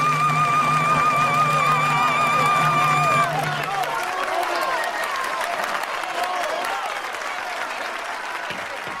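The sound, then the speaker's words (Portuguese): Loud general applause from an audience after a trumpeter collapses exhausted at the end of a vocal duel with a young castrato. A held musical note fades out over the first few seconds while the clapping continues steadily. “O trompetista cai exausto e há gargalhadas e aplausos gerais.”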